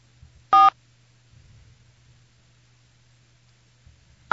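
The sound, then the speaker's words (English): Telephone keypad tones as a number is dialed, two short electronic beeps separated by a long pause, over a faint steady low hum. “Oh, I was just dialing the number.”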